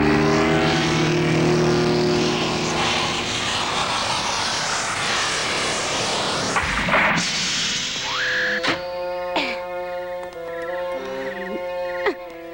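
An aircraft comes in to land: a loud, steady engine roar fills several seconds and then cuts off, followed by a few short, sharp tonal chirps and buzzes with no voices.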